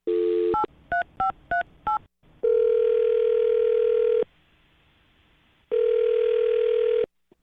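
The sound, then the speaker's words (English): Telephone keypad tones beep in a quick run of five as a call is dialed, followed by two long, steady ringing tones separated by a short silence. “let's get her on the phone and find out”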